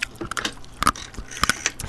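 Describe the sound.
A creature chews on laboratory tongs, producing a series of sharp, irregular metallic clicks and gnawing crunches, fairly faint and spread unevenly over the moment with no talk.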